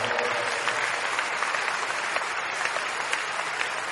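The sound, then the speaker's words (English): Applause from a church audience honouring the Lord during a service: dense, steady clapping that fills the whole stretch at an even, moderately loud level. “Let's give the Lord a big round of applause for”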